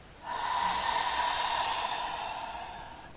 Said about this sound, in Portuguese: e solta pela boca, deixando o passado ir embora. Inspira novamente